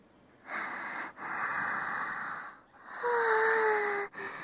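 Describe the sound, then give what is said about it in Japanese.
A person draws a deep breath in a few long, airy hissing pulls and releases separated by short pauses, with a faint whistling tone in the later breath. “深呼吸。”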